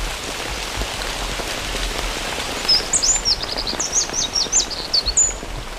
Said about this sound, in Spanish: Aquí un pajarito muy pequeño, 7 gramos de chochín, con una voz muy potente, que está cantando a pesar del aguacero